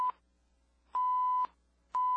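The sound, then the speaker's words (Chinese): Beeping from a handheld sonar device scanning a cave: three steady, mid-pitched electronic tones. A short blip comes first, then a longer half-second beep, then another that starts at the end, with silence between them. “我连忙从背包里面掏出手提声纳仪，对上下左右和四面八方都做了最仔细的扫描。”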